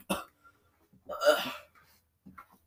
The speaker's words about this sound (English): I have the hiccups very badly.